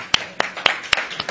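Hand claps from a church audience, sharp and bright, falling in a steady, evenly spaced beat of several claps in a row.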